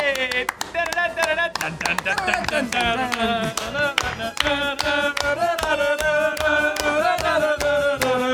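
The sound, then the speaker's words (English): Hava Nagila plays loudly and continuously, a bright, lively melody driven by a steady, brisk clapping beat. “That's the Hava Nagila, not a President's Day music. Gamers don't know that.”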